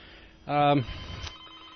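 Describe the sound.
A single short telephone ring as a caller comes through to a community FM radio call-in show. It is a bright, buzzy burst lasting well under a second, followed by faint low noise.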